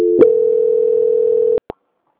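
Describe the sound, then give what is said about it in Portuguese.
A steady telephone tone plays while a call is being transferred, holding one even mid pitch for over a second before cutting off abruptly, followed by a couple of short clicks. “agora eu vou transferir você para o setor de qualidade, tá bom? Só um instante. Tá ok. Transferência.”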